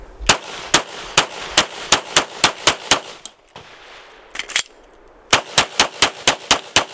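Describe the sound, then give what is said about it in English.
Pistol shots crack in rapid sequence during a shooting drill across targets from left to right: a long, evenly spaced string of sharp, loud reports, a short pause with a quick pair, then another fast burst. “Difference is sequencing my shot as soon as I get on the black dot, making sure I'm pulling the trigger. And as soon as I pull the trigger, I'm already moving.”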